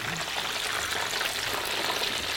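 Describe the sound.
Hot frying oil drains off freshly fried food with a soft, continuous sizzling hiss and trickle, fairly faint and even throughout.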